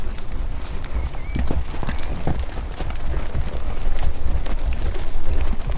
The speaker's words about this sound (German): Sagt hey und führt sein Pferd in Rundum.